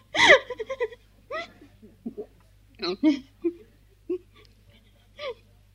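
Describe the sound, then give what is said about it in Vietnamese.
A person cries in front of someone, whimpering and sobbing in a series of broken, uneven bursts with short gaps between them. The first outburst is the loudest and the later ones are quieter and more halting. “thì con khóc cho nhiều rồi về nó nhẹ. Đứng trước mặt tôi khóc là tốt rồi.”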